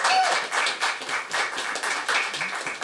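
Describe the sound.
An audience claps to welcome a guest onto the stage, with a steady, rhythmic patter of distinct hand claps at a brisk, even pace and moderate loudness throughout.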